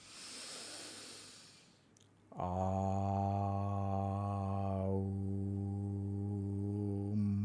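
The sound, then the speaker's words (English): A deep breath is drawn in during a vocal humming exercise: a soft, breathy hiss lasting about two seconds. A steady, low sustained sung tone follows and holds to the end, shifting vowel partway through. “Deep breath in.”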